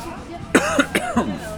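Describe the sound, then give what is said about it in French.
A few raspy, throaty coughs come in quick succession, loud bursts with a voiced, rough edge against a quiet background. “c'est à mon avis, c'est le palier qui fait tousser”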